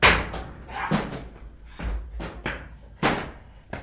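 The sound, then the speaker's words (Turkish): A door being broken down: a series of heavy, dull thuds and bangs at an irregular rhythm, several of them loud and booming, with rattling between the blows. “Kırın kapıyı.”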